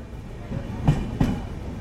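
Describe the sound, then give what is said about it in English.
Steady low rumble of a blue passenger train standing at a small-town railway station platform in India, with two short knocks rising above the continuous drone. “There's a nice blue train on the platform. But it's quite full, actually.”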